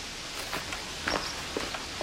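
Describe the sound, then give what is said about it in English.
Footsteps of someone striding back to a house: a handful of faint, crisp steps in an uneven walking rhythm over a low, quiet background. “David strides back to the house”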